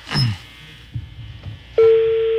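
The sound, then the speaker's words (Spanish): A steady single-pitch ringing tone sounds on a phone line as an outgoing call goes unanswered. It starts late, after some low, uneven noise, and holds evenly to the end. “creo que está sonando el teléfono. Está sonando, pero no contesta.”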